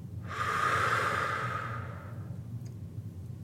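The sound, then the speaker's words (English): A deep breath in and out during a guided relaxation exercise: one long, breathy rush of air that swells quickly, holds, then fades over about two seconds, with no talk. “Take a big inhale. Complete exhale.”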